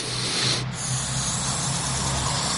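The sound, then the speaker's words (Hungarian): Steady blowing through a toy pipe that keeps a foam ball floating: a loud, even, breathy hiss that lasts throughout, with no talk. “Megmutatom, hogy fújom, és nem esik le a labda, jó?”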